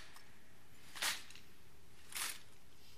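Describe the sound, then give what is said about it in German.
Two brief clattering snaps of rifles as soldiers present arms at a Großer Zapfenstreich military tattoo, about a second apart, faint over a steady low hiss. “Das Gewehr über! Achtung, präsentiert das Gewehr”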